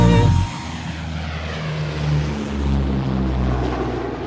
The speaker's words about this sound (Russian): Мы взлетели и теперь летим над коричневой пустыней.